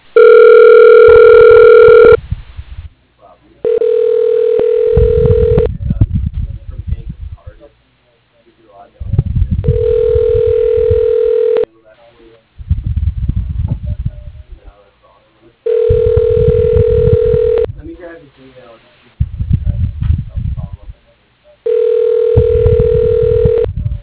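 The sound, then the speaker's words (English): Telephone tones as a call is being connected: five steady, buzzy ringback tones of about two seconds each, repeating every few seconds, with muffled low-pitched bursts of other sound between them. “Okay, dialing.”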